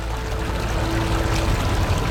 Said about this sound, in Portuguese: Quase consigo ouvir a água a correr